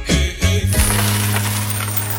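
Coins dropping as a sound effect: a few loud clinking impacts in quick succession, then a sustained, bright metallic ringing that hangs on and fades slowly to the end.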